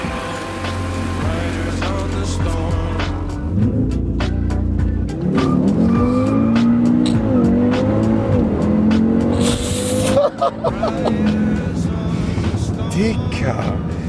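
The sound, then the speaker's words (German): A dark green, technically tuned Audi driving out of a hall, its engine revving up and down with squealing tires, loud and sustained throughout. “So, und dann fahren wir aus der Halle in Slow Motion. Der dunkelgrüne Audi geht raus.”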